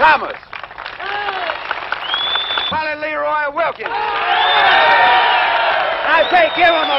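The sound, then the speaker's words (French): A crowd cheers and applauds at a Ku Klux Klan meeting, loud and sustained, with shouting voices and whoops rising over the clapping. “Quelques jours plus tard, les assassins sont même ovationnés lors d'un meeting du Klan. Un journaliste de la télé française filme cette célébration”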